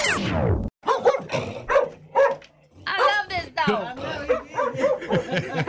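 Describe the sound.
A dog barks and yips in a series of short, bright, energetic bursts, mixed with people talking over and between the barks.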